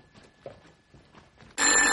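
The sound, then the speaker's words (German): Telephone bell ringing in a living room: it cuts in abruptly after faint low murmuring and rings loud and steady to the end. “Das Telefon stand im Wohnzimmer.”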